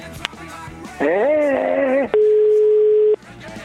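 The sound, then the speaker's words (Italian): Electronic telephone tones while a call is being placed. A wavering, warbling tone lasts about a second, then after a brief gap a steady, loud single tone holds for about another second. “io vorrei provare a chiamare il presidente Ferrero. Proviamo, presidente.”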